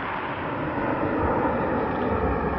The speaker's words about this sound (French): Et maintenant, enfin, le premier vol. Ce premier vol que 600 journalistes attendent autour de la piste et que vous tous allez voir maintenant en direct. Le voilà.